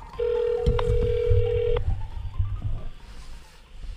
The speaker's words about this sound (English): I'm going to dial him up right now in my cell